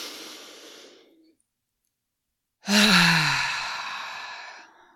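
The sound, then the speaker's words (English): A person draws a big, deep breath as a long, loud, breathy rush that slowly fades away. A softer breath tapers off just before it, followed by a short silence. “let's just take a big, nice, big, deep breath in together. Let's take one more.”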